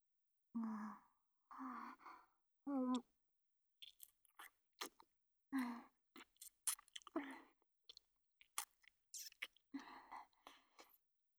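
Wet mouth sounds of someone licking and chewing something salty: three short voiced hums or sighs open, then many quick moist smacks and clicks in an uneven rhythm, fairly quiet, with no speech.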